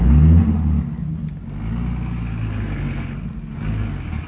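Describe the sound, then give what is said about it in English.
A station wagon's engine revs as the car drives off. A loud low rumble at the start settles into a steady, even motor drone, with no voices. “Well, here's the wagon. Hop in. No, come on up front. We can all sit in the front seat.”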